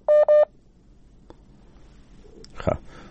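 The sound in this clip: Two short telephone dialing tones from a call-in line that fails to connect, followed by quiet line hiss and a brief burst of noise.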